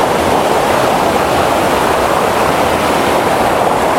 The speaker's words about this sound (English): I need to cross this river again.